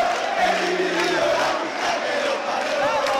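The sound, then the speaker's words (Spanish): Crowd chanting at a live rock concert, a dense mass of voices holding a steady sung cheer in unison, loud and continuous throughout with no break. “Hay mucho cantito del público entre tema y tema.”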